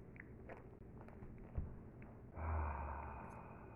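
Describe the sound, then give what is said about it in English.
Slow, deep breathing in a calming exercise: soft, airy breaths, faint overall, with one long, steady breath swelling up midway and holding to the end, no talking. “Let's do a couple exchange breaths with the Earth. So we draw up from the Earth on the inhale, and on the exhale, we send it back.”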